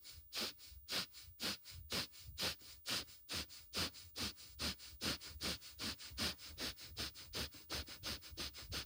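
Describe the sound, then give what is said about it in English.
Rapid, forceful breathing in and out through the nostrils during a breathing exercise that flutters the diaphragm. Many short, sharp sniff-like pulses repeat in a steady, quick rhythm with no talking. “exhale, relax. All through your nostrils. Inhale out, exhale, relax. Out, in, out, in, out, in, out, in, out, in, out, in.”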